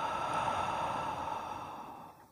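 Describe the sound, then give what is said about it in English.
A deep breath, drawn in through the nose and let out through the mouth, comes across as a soft, airy exhale that slowly tapers away, alone and fairly quiet. “Now take a deep breath in through the nose and out through the mouth.”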